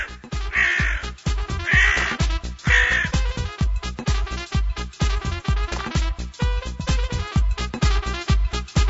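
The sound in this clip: A crow caws harshly, with three loud, raspy caws in the first three seconds, amid many rapid rhythmic pulses that carry on steadily to the end.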